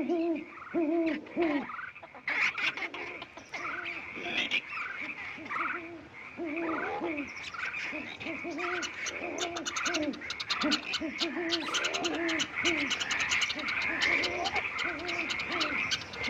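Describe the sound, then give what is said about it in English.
Animal calls open a TV sitcom clip: owl-like hoots layered with croaking frogs, many repeated calls overlapping in a steady, busy chorus that continues throughout, with no talk. “It's just animal noises for like the first 20 seconds, so bear with me.”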